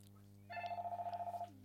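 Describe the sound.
A telephone rings in one short burst of rapid, evenly spaced electronic pulses over a steady low hum.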